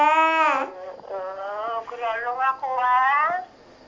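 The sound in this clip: A baby crying in a few drawn-out, wavering wails, fairly loud with short pauses between bursts.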